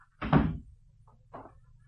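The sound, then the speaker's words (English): A door is closed: a dull, fairly loud thud, then a softer second knock about a second later, over a low steady hum. “Close the door.”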